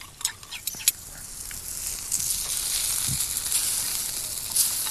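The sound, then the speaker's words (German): A salted mixture is stirred in a hot pan, giving a faint, steady sizzling hiss with a few sharp scraping clicks near the start. “Ja, aber mach mal Salz noch rein. Wie viel? Gib Gas, kannst Gas geben. So? Ja. Eine Messerspitze? Ja, so auch, genau. Ist genug? Noch etwas? Es verrührst es ordentlich.”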